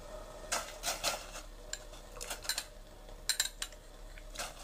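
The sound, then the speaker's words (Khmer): Tofu being added to a pot of hot water: a quiet, uneven series of light clinks and clatters from utensils and the pot. “ទឹករបស់យើងក្តៅហើយមិនចាំបាច់ពុះម្ដងទៀតក៏បានដែរយើងបង់តៅហ៊ូចូល”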